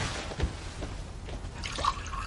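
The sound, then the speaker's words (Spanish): Coffee is poured, giving a soft liquid trickle with a few small drips and splashes. It stays fairly quiet against a faint background hiss. “Gulber sirve el café.”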